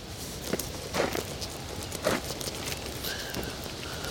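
Footsteps walking along a bumpy meadow path: a few soft, uneven crunching steps, faint and spaced irregularly, with no voices.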